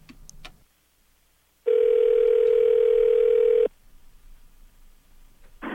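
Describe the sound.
A telephone tone sounds while a caller rings back a dropped line: one steady, plain, mid-pitched tone lasting about two seconds, alone, between short stretches of near silence.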